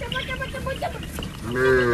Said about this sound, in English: That is a Thai farmer summoning her cow from across a field.